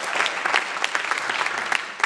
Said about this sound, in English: And yes, clap it up, guys.